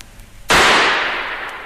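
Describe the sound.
A single pistol gunshot rings out as a sharp, loud crack after a quiet moment, then trails off in a broad, slowly fading tail.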